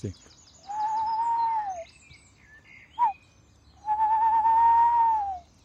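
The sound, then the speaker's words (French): A tawny owl calls in a city park at dawn with two long, steady, mellow hoots separated by a short single note. Faint high chirps from other birds sound in the background. “on peut encore entendre de la chouette hulotte ici sur le parc de la Citadelle, et les toutes premières espèces de jour. La chouette, on l'entend là ?”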